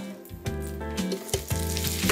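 Oil sizzles in a frying pan while food cooks, a steady crackling hiss running throughout with a few sharper spits rising out of it.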